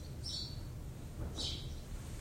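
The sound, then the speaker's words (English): Bird calling outside a window: two short, high chirps separated by about a second, faint against quiet background noise. “You know that bird's actually screaming, "Let me in," right? He's staring right at you guys. It's a herald of spring.”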